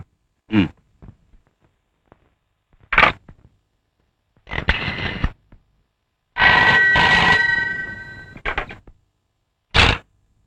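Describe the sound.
A telephone rings on a local call in a few separate bursts, one longer sustained ring in the middle, with no talk.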